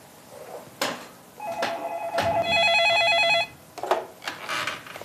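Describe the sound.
A telephone ringing: one sustained electronic ring burst in the middle, framed by a few sharp knocks and handling sounds before and after, fairly faint overall.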